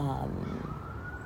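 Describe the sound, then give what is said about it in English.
A siren wails outdoors, its loud tone sliding downward and then climbing again into a steady rising sweep. “I'm sure you can hear the birds and the siren that's going off.”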